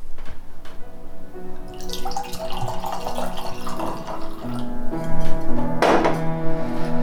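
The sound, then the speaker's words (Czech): A drink is poured during an evening of drinks with a priest, the liquid trickling and splashing in a glass. Bright tonal ringing runs through it, and the splashing grows louder toward the end. “No, rozhodně naliju. Rozhodně naliju.”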